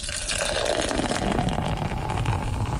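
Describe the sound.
Draught beer poured from a tap as a small glass is filled, a continuous foamy hiss and rush of liquid that holds steady and fairly loud throughout, with no talking.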